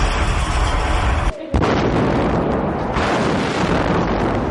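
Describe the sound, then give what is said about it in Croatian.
Heavy artillery shelling during the siege of Sarajevo: a dense, loud roar of blasts and low rumble that continues throughout, with one brief drop in level partway through. “Uveliko se oko Sarajeva razmješta teška artiljerija.”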